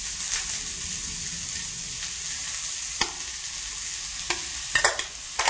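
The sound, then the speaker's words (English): A spoon mashes food in a pan over a lowered flame, with a steady frying sizzle throughout and a few sharp taps and scrapes of the spoon against the pan toward the end. “We can just smash it like this. Okay, let me lower the flame. We can mash with spoon? Yeah, it's okay if you mash with spoon.”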